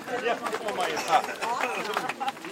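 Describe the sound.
Shuffling footsteps and chatter from a group of demonstrators setting off on a march, a continuous babble of voices over the steady movement of many feet.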